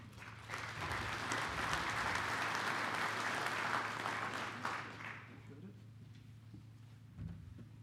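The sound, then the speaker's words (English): Applause from an audience welcoming a bank's senior vice president of community lending in Oregon, sustained and even for about five seconds before fading into quieter background. “So let's give a round of applause to Brent.”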